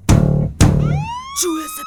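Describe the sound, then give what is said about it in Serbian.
Police siren wail in a song, its tone gliding upward in a rising sweep after two loud, broad bursts at the start. “Čuje se policija. Čuje se policija.”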